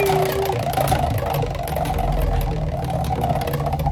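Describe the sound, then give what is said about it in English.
A prize wheel spun for a birthday giveaway, its hub worn and shedding bits: a continuous whirring rattle that runs evenly through the whole clip, with rapid faint ticking inside the whir. “All right, Casey, we're going to spin that wheel for you. Here we go.”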